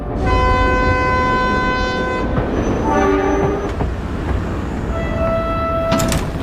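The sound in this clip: A passenger train arrives at a station: a loud, steady rumble of rolling carriages with long, sustained horn-like tones at the start and again near the end, and a brief sliding, clattering noise in between.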